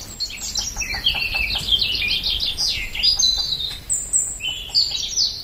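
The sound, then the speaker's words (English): Bird song recorded in a forest near Barcelona, Spain, with a chaffinch singing repeated bright, fast trills that drop in pitch, mixed with other chirps over steady soft background noise. “what you were hearing was, among other things, a woodpecker.”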